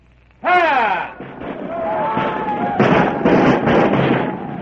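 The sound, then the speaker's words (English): Musket fire from American militia: a shouted command, then several loud, crackling bursts of gunfire over a continuous noisy din. “Fire! Behind every wall, hidden in every farmhouse, crouched back of sheds and behind rocks, the American militia returned the fire.”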